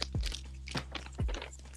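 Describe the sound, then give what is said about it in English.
Plastic crunching and crackling as someone pries open a container of kinetic sand, three sharp bursts spaced roughly half a second apart, each followed by fainter rustling, fairly quiet overall. “Guys, if you hear really annoying sounds, I'm sorry. I'm trying to open kinetic sand right now.”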